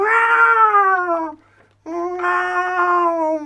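A cat meows twice in long, drawn-out calls. Each is bright and loud, sags slightly in pitch toward the end, and is separated from the other by a short silence.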